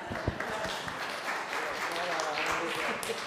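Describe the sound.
An audience applauds after a scripture reading, with quiet scattered clapping that runs steadily under a few voices.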